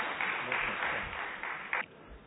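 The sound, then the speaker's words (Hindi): Applause from an audience welcoming a speaker to the stage at a spiritual gathering: a steady, dense wash of many hands clapping that holds at even strength and tapers slightly at the end. “जोरदार तालियों से हम भाई साहब का स्वागत करते हैं।”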